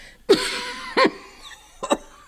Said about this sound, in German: Der Husten schmerzt.